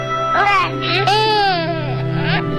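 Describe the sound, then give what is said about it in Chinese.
A baby cries in loud, wavering wails, several rising and falling cries in quick succession over a low, steady background hum. “宝贝别哭，抱抱抱。”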